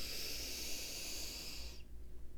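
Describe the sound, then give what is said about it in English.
A slow, deep breath drawn in during a relaxation exercise: a steady, breathy hiss holds for nearly two seconds, then cuts off abruptly. “you want to do this a few times whenever you feel stressed or overwhelmed, or you just need a couple of moments of a break. All right? And just breathe in”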